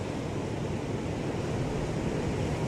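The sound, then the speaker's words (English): Ocean waves make a continuous, full-bodied roar of surf that stays steady and fairly loud for the whole stretch, with no voices. “The ocean is back.”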